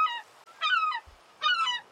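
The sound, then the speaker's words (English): A seagull calling in three separate squawks, the first short and the next two longer and wavering, clear and alone with quiet gaps between them. “He really has a lot to say. What is he saying? Honestly, I have no idea. And at this point, I'm a little too embarrassed to tell him that I don't speak seagull.”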